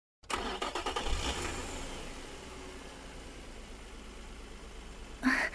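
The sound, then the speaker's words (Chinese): A sports car engine starting: a brief cranking burst catches into a low rumble, then settles into a steady idle, with a short louder rev or knock near the end. “这还是我第一次坐跑车呢，借你的光了。”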